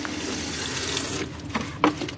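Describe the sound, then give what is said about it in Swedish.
Paint is stirred in large buckets at a sink in an assembly hall, giving a soft, continuous watery rush. Near the end come a few sharper sloshing splashes. “börjar dagen med att röra om i sina stora färghinkar vid diskbänken”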